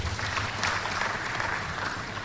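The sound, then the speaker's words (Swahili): A hall audience gives a short burst of applause after introductions at a ceremony attended by the Prime Minister. The clapping is dense and steady from start to finish. “makofi mengi sana kwa utambulisho huo”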